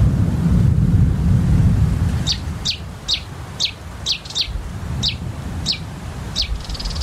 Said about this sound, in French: Il y a un oiseau là. On dirait qu'il me suit.